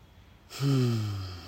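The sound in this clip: A single breath drawn while grounding before speaking, heard as a sudden airy rush with a low voiced hum that slowly drops in pitch and fades, like a sigh. It is fairly loud, with no words.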